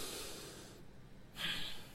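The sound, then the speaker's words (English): A deep breath drawn in during a guided breathing exercise: a faint, airy rush of breath that dips briefly and then swells slightly louder before fading. “Let's breathe it on in.”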